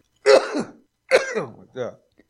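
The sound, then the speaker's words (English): Coughing and throat clearing from someone clearing a bug out of their throat in a studio: two strong rasping bursts, then a smaller, softer one, with no words spoken. “that was just a bug flying in the studio. We had to cough him out.”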